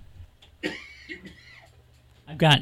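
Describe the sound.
A person clears a tickly throat in one short, harsh, loud burst near the end, after a stretch of softer voiced sounds.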